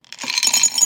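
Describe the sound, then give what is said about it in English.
Jelly beans poured into a candy bowl make a rapid, bright clatter of many small clicks and ticks that builds and lasts under a second. “That's the sound of Buck's jelly beans being poured into a candy bowl.”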